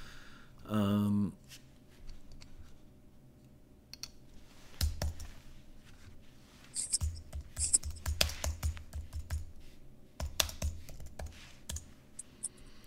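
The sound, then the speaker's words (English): Computer keyboard typing during an online search: irregular, light clicks and keystrokes in scattered bursts, sparse at first and then busier. They sound fairly faint over a quiet background. “I guess I could Google it if I have my act really together.”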